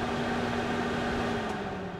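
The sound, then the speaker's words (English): An oven fan runs with a steady, even hum: one constant mid-low tone over a smooth airy whoosh that holds level throughout, with no voices. “I created the oven sound. That's where you put the oven on.”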